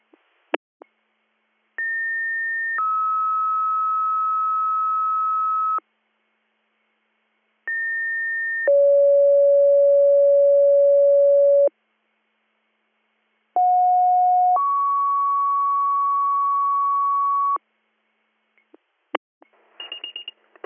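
Emergency dispatch pager tones sound in three separate two-tone sequences, each a short higher beep followed by a long, steady lower tone, with silent gaps between them and a few brief clicks at the end.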